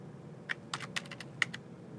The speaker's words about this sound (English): So we're going to type add at the client package, and then we're going to add the path in.